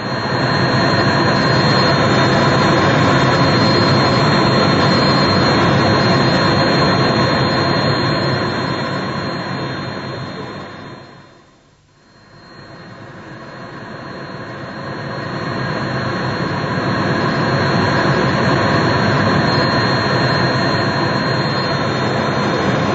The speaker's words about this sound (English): Just 30 minutes exactly since we took off from Kloten Airport in Zurich